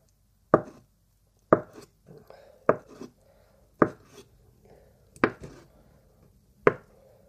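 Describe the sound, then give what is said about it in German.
A knife chopping mozzarella into small pieces on a board: six sharp, loud chops at uneven intervals, with softer taps and light clatter between them. “Jetzt nehme ich den Mozzarella. Schneide ihn klein.”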